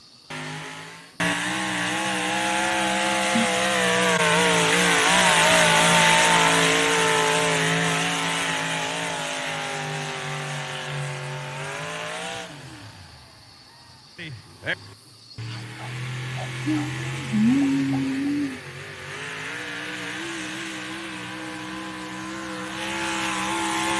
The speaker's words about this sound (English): That's one of those little 650 cubic inch motors coming out of the NTPA.